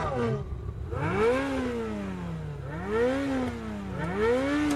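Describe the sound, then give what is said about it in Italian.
A Ferrari sports car engine revs loudly, its pitch sweeping up and down several times in smooth, repeated surges. “Bella macchina. Quanto sta di listino una di queste? Più di quanto ti puoi permettere. È una Ferrari.”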